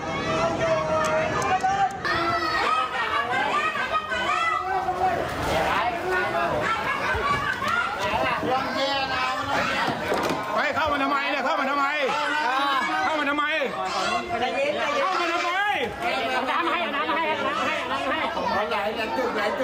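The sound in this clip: Crowd chatter during the Thai prime minister's visit to Khlong Chan in Bangkok: many overlapping voices talk at once, loud and continuous throughout.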